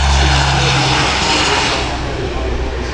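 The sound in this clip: A Hercules transport aircraft flies past at an airshow. Its propeller engines make a loud, deep droning roar with a low hum that eases slightly as the plane passes.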